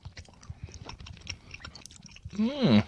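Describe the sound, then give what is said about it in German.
Someone chews while taste-testing fruit-flavoured sweets such as apple and cherry. Soft, irregular chewing clicks are followed by a brief hummed vocal sound at the end. “Vielleicht muss man mehr drauf rumkauen.”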